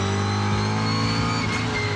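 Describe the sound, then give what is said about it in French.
A V8 engine in a lightly prepared rally car revs in a loud, continuous low rumble with rich harmonics and slight wavers in pitch. “il y a quelque chose qui m'enchante les oreilles, c'est le son du moteur V8”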